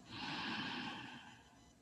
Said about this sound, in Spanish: y relajamos el cuerpo como ya sabemos y comenzamos a respirar para que esto ocurra. Inhalamos profundo.